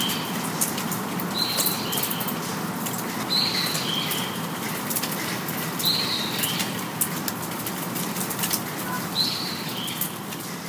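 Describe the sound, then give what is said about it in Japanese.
Birdsong on a rainy day: short, high chirps recur every few seconds over a steady hiss, each call brief and fairly faint. “久しぶりのね、鳥の声で開けましたが”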